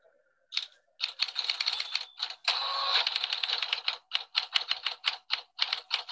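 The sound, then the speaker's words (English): Someone types answers on a keyboard: many rapid, crisp key clicks in uneven bursts separated by short pauses, with no talking. “Since she can't talk, she's going to type her answers.”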